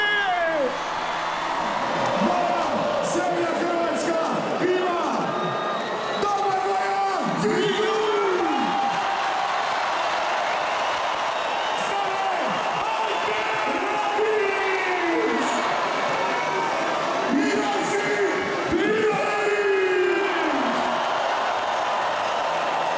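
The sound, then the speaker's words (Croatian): A large crowd in Zagreb cheers the arriving Croatian national football team: a loud, continuous roar of whoops, shouts and whistles, with voices rising and falling in pitch throughout. “Ljudi, hrvatska reprezentacija je stigla, vatreni su stigli. Ajmo na veliki pljesak za njima!”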